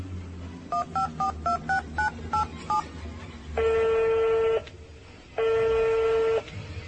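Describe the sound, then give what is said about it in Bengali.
Keypad tones ring out as a telephone number is dialled, a quick run of short, even beeps, followed by two long, steady buzzing ring tones separated by a brief gap. “কাকে phone করছো? Secretary ভদ্রলোক।”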